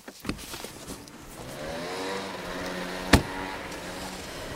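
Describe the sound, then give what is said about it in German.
A car engine runs while the car is being re-parked, a low steady idling hum that swells slightly, broken by a couple of sharp thuds, one near the start and a louder one later. “Herr Mager parkt das Auto um und wir verfolgen ihn wieder mal.”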